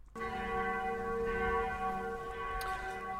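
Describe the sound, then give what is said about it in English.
A mission bell rings out with a sustained, resonant tone, its layered overtones humming steadily throughout with a brighter strike near the end, and no talking. “That's the sound of the mission bell once more, meaning it's our mission segment of the week.”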